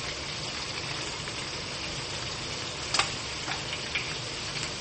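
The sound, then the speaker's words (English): Liquid drains out of beans in a steady, faint hissing trickle, with a couple of light clicks near the middle. “take the liquid out of the beans. Like so.”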